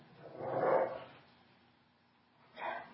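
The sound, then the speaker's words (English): Dogs fighting, a big one and a little one: two faint bursts of barking or snarling separated by a quiet gap, with no voices. “Sorry, some dogs are fighting each other. Danielle, have you got control of that? Yeah. Okay. we have a big dog and a little dog,”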